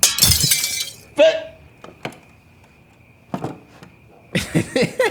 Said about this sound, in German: Ich schlag das Fenster ein, das hörst du.